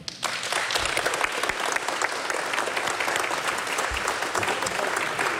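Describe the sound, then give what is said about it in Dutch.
Applause from an audience welcoming a live musical duo, dense and energetic, with sharp individual claps standing out from a steady roar over about five seconds. “Dames en heren, mag ik een groot applaus?”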